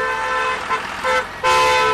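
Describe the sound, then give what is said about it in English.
Red coal trucks honk on a mountain road in Shanxi coal country, with steady-toned horn blasts over road noise, building to a final long blast that is the loudest. “Red coal trucks the size of armored vehicles cut through the toxic sulfur smog blanketing China's coal country.”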